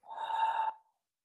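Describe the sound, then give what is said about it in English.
A single deep breath taken during a guided breathing exercise, a smooth airy rush lasting under a second before fading into silence. “So breathe in and out.”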